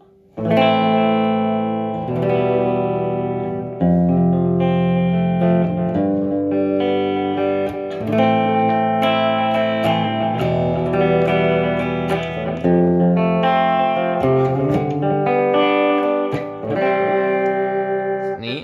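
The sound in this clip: Electric guitar played through a tape echo delay setting, with slapback-style repeats trailing sustained, distorted chords and notes that ring continuously with a thick, effected tone.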